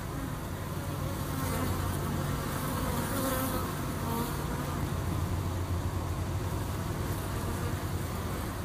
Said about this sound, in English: I'm just thinking back to when I was recording this beekeeper and I had a panic attack because his bees were landing on my microphone and it freaked me out.